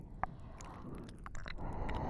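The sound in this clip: Wet ear-licking mouth sounds, close and quiet: one sharp click near the start, then several soft, squishy smacks over faint hiss.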